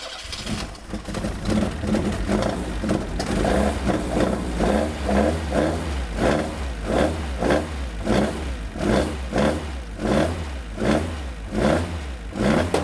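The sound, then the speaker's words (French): Loud engine of a Fiat Ritmo 130 TC Abarth, a 1970s–80s design prepared for historic Group A racing, running just after start-up. Repeated throttle blips rise and fall in a steady pulsing rhythm over a rough, lumpy idle, with no talk. “on vient de mettre en route euh, une Fiat Ritmo 130 TC Abarth, préparée pour des courses euh, Groupe A historique.”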